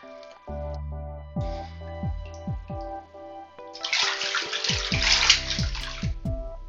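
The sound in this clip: A bathtub being filled with water: a series of hollow plopping tones with falling pitch, then a loud rush of running water with more plops underneath.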